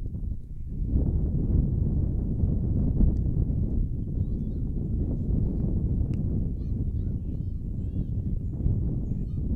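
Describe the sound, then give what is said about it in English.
Wind whips across the microphone at an outdoor high school baseball game, Northern at Port Huron, making a loud, steady, low rumbling roar that buffets without a break. “Wind whipping up now. Where did this come from?”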